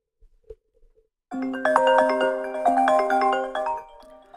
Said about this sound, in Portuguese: Eu acho que este é um toque de pessoas de negócios. Vou, ouçam outra vez e pensem numa pessoa de negócios.